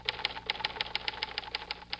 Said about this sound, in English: Those are check writing machines at the home office of the Equitable Life Assurance Society.